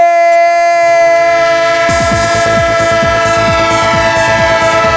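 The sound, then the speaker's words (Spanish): Train sound effect: a sustained, loud, multi-toned train horn holds steady throughout, joined partway through by a rhythmic clickety-clack of wheels over rail joints. “¡Tren de Radio Estadio! Claro que sí, el tren de la radio, el tren de Onda Cero, el tren que llega a su parada final”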